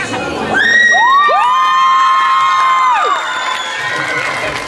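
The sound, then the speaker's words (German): A crowd of children cheering and screaming as a dance team is honoured with second place at a competition. A long, loud, high scream holds steady and then drops away, surrounded by shouting voices and dense cheering that fades slightly at the end. “So muss das sein hier. Ganz viele Schreie.”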